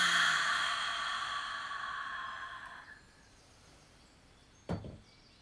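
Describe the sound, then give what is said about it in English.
A deep breath is drawn in through the nose and released during a guided meditation: a soft, airy breath fades slowly over about three seconds, followed later by one short breathy puff. “let's take a nice deep breath in through our nose and release it.”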